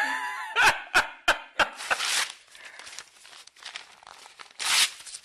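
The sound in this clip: Paper documents torn by hand: about five sharp, rhythmic rips in quick succession, then continuous rustling and crumpling, ending with one last loud tearing rip.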